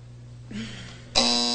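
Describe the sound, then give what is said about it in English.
Harsh, loud game show contestant buzzer, cutting in abruptly after a low hum and holding steady without a break to the end. “Afraid to answer with that quick buzzer, weren't you”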